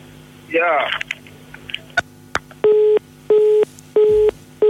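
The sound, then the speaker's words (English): Telephone keypad tones as a number is dialed on a live radio call-in line, four evenly spaced steady beeps lasting about a third of a second each. A brief voice and a few clicks come before them. “You dial the number.”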